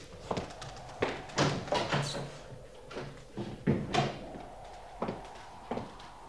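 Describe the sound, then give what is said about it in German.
A door being opened, heard as a series of dull clicks, knocks and thumps spread irregularly across several seconds, moderately quiet with brief gaps between handling sounds. “Hier, diese Tür.”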